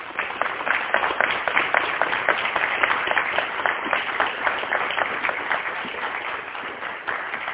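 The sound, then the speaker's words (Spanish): Loud applause from the audience at an international UFO congress in Argentina: a dense, even rattle of many hands clapping that holds steady for the whole stretch. “Coronel Ariel Sánchez, háganos el favor con un fuerte aplauso,”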